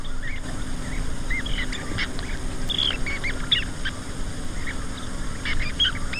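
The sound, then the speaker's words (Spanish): A merlin falcon calls, giving many short, sharp, high-pitched notes in irregular succession over a steady background hiss. “Un halcón. Y este me gusta mucho. ¿Por qué has puesto un halcón esmerejón?”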